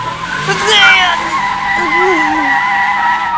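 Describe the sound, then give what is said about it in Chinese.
Tires skid as a car brakes hard, giving a loud, high, wavering squeal that holds for about three seconds. “袁子峰猛地一脚踩了刹车”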